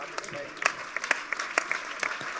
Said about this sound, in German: Applaus!